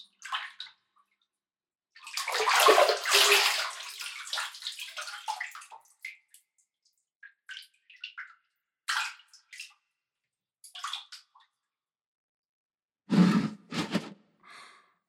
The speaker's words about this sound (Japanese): 背中を流してあげよう